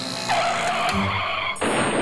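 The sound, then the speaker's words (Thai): A bicycle ridden fast through mud and skidding: a loud, sustained squealing skid with steady whining tones, cut by an abrupt shift near the end into a harsher, noisier hiss. “เห็นน้องๆปั่นจักรยานลุยโคลนดูง่ายๆสบายๆเลยขอยืมมาซิ่งสักหน่อยครับ”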